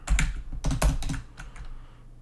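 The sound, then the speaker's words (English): Typing on a computer keyboard, a quick flurry of many clicking keystrokes, loudest and densest in the first second before thinning and tapering off, with no talk. “once I finish typing this out, I'm done for today.”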